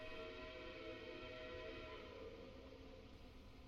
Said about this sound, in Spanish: se escuchó el lánguido silbato de una locomotora cruzar sin parada por el ceniciento poblado de Villa de Tezontepec.